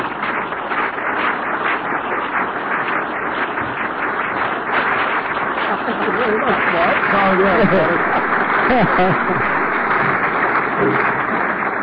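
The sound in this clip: Audience applause welcoming a guest speaker at an Alcoholics Anonymous meeting: dense, steady clapping from many hands that fills the whole twelve seconds without letting up.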